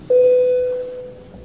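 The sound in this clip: A parliament's voting signal sounds as a single steady electronic tone, held at one pitch for under a second and then fading, leaving faint background noise.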